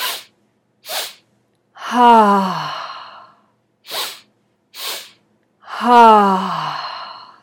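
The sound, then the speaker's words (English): A person demonstrates a breathing exercise with two quick, sharp breaths followed by a long, deep, voiced exhale through an open throat with a low vibration. The whole pattern plays twice. “a lower vibration, opening up your throat here. So it's gonna sound like this. Again, the breath into your belly, into your chest, out from your mouth.”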